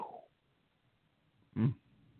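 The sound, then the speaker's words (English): A dog gives a single short, low bark that stands out against near silence. “Oh my God, that's my dog. One second.”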